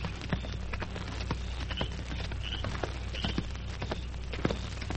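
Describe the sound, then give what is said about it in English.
A large horse's hooves paw and stamp on dirt in many irregular soft thuds over a steady, noisy background. “the great horse Silver whinnied and pawed the dirt”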